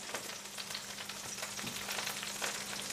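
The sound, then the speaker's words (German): Butter sizzles in a frying pan over browned residue from a meat substitute, a steady crackling hiss with scattered small pops that holds at an even level throughout, with no talk. “Da tue ich jetzt Butter rein.”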